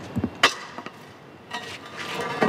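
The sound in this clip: A manhole cover pushed over cobblestones with a long tool in a street in central Rome: a few sharp metallic knocks, then a rough, grinding scrape toward the end.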